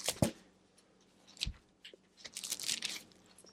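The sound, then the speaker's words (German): Bible pages being turned to one chapter: soft paper rustles and crinkles come in a few scattered bursts, with a longer, busier stretch of rustling near the end. “Matthäus 18, Vers 9. Schlagen Sie bitte mit mir auf. 18, Vers 9, Matthäus.”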